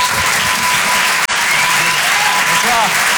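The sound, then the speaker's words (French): An audience at the Rire et Chanson Comedy Club applauds and cheers a comedian, a loud, steady burst of clapping with scattered shouts and one brief gap. “Je vous demande de l'encourager. Faites du bruit s'il vous plaît pour Boris Cholin.”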